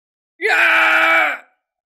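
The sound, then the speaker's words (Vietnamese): Loud scream of a fighter during a battle in an audiobook: one harsh, sustained cry of about a second that holds a steady pitch and then fades out, heard alone. “Kim Xích Tiêu kêu to”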